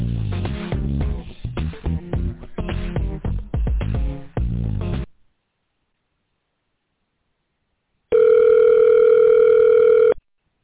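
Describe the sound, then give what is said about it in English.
Telephone dial tone heard as the caller gets ready to dial a number. A single steady, even buzz holds for about two seconds after a stretch of silence. “Okay, so I'll go ahead and dial the number. Let's see if someone is going to be available to finish the appointment, okay?”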